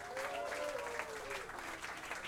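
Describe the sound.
An audience applauds at a jazz club event: steady, dense clapping from a crowd, fairly quiet overall, with a faint falling tone drifting over it in the first half.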